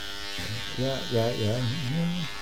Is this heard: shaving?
yes